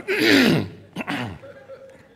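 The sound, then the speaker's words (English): A man demonstrates his own throat clearing: a breathy, voiced rasp, then a short harsh catch and a rougher follow-up, fading to quiet. “to try to be a little bit discreet and a little bit cool about the whole thing, I cleared my throat. And again, and then when we're talking and it comes again, and I go,”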